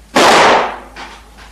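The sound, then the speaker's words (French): A warning shot fired from a gun: one loud, sharp crack with a quickly decaying tail, followed by two fainter bursts. “Coup de semonce.”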